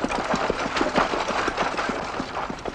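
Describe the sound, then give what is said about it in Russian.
A tractor engine runs in a field, giving a loud, steady chugging with rapid, evenly spaced knocking pulses throughout. “На поле работает трактор и запряженные плугом лошади.”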